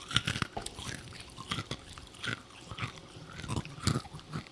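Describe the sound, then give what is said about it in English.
Candy is chewed right against a microphone, giving loud, wet crunching and biting sounds in an irregular run of many close, crackly bites and chews, with no talking. “Let's just eat this candy into our microphones.”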